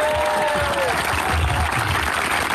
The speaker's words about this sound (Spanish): Denle un aplauso al Señor, no se enoje.